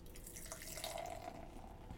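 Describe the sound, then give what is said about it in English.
English brown ale being poured from a freshly opened bottle, heard as a faint, continuous gurgling and splashing stream of liquid with no voices. “Going to pop my top. Woo! My top! And the pour.”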